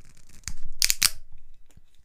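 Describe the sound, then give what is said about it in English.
A wine bottle cracked open gives a few sharp, dry crackling bursts, clustered close together and then quickly fading. “let's get into the wine and I'll get into what that reminds me of. So, here comes the crack.”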